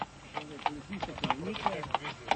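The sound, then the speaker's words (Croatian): Hooves of Slovenian police horses patrolling the border with Croatia clop in a steady rhythm of many beats beneath a voice that talks throughout. “Slovenski policajci obilaze granicu sa Hrvatskom na konjima.”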